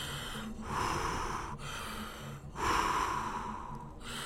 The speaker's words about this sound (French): Allez, respire profondément.